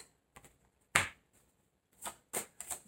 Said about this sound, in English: May I have four more cards, please? Thank you.